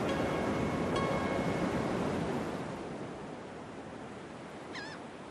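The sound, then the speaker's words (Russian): Surf washing onto a wide sandy shore under misty haze: a steady, broad roar of breaking waves that is loudest at the start, then eases slightly and continues evenly. “Широкая песчаная береговая полоса, выбрасывающая волны на берег водная стихия, теряется в туманной дымке.”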